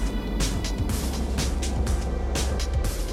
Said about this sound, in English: The ignition of the Pegasus rocket with Cygnus